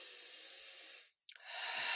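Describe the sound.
A deep breath: a steady airy hiss that fades into a brief silent pause, then a second breathy rush that swells louder and holds to the end.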